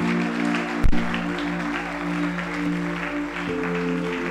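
A church audience applauding in praise for a man's life: dense, steady clapping throughout, with a sustained musical hum underneath and one sharp thump near the start.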